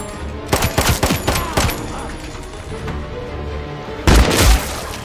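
Gunfire erupts during a violent fight at a wedding: loud, rapid cracking bursts like a fusillade for over a second, a rumbling lull, then another short, heavy burst near the end.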